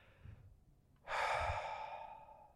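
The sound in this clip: People at a church prayer gathering exhale together with heads bowed, a sudden breathy rush that swells after a quiet moment and then slowly fades away.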